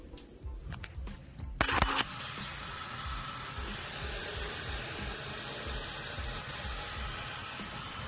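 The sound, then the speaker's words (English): Water rushes into a kettle: a few brief clinks and splashes give way to a steady, even stream of running water that holds at a constant level to the end. “First, I just need to put some water into the kettle.”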